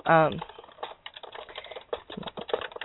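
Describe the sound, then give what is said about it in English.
Keys click on a computer keyboard as someone types a question into a chat room. A short vocal sound comes first, then brisk, irregular key presses follow at a steady, moderate level. “And I'm going to type a question in the chat room again and see if anybody knows.”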